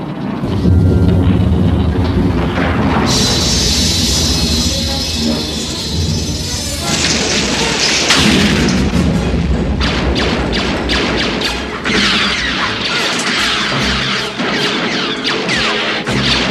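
A door explodes open with a loud, booming crash, then heavy thuds and sustained roaring noise with further sharp impacts, dense and loud throughout.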